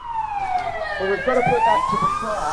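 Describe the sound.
Wailing emergency vehicle siren at a staged car crash simulation on a town street. The loud tone sweeps down in pitch, then climbs again, while people talk nearby.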